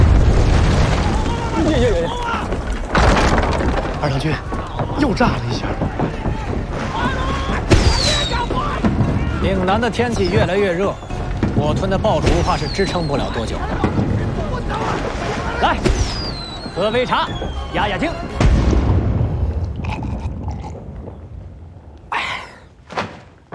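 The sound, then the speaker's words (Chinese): Firecrackers go off in a few sharp, loud bursts spaced through the scene. People talk between and over the bangs, and the sound ends in quieter, scattered noise. “又炸了一下！岭南的天气越来越热，我吞的爆竹怕是支撑不了多久了。”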